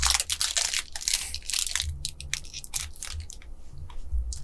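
Crunchy biting and chewing of a premium chocolate digestive, a chocolate-coated wheat biscuit, giving many crisp, crackly bites in an irregular rhythm, fairly loud and with no talking.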